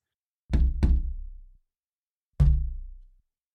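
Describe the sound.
Knocking on a door from outside a room: two quick raps close together, a pause, then one more knock. Each blow is loud and solid, with a short ringing decay, and no voices.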